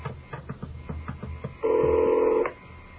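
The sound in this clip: Telephone dialing and ringing on a call: a run of short, evenly spaced pulses, then one loud steady tone lasting just under a second before it cuts off.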